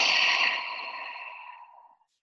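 A person breathes deeply during a guided meditation, with one long, airy breath that starts fairly loud and fades gradually to silence over about two seconds.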